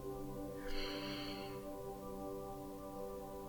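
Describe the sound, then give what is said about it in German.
A single deep breath is drawn in through the nose during a guided meditation. The soft, airy inhale lasts about a second over quiet sustained musical tones. “Und atme ganz tief durch deine Nase ein.”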